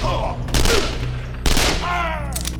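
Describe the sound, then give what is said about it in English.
Gunshots crack overhead in a firefight, with two loud, sharp bursts about a second apart over a rumbling, noisy background. “Shots cracked over his head, each mini-sonic boom as loud as a pistol report.”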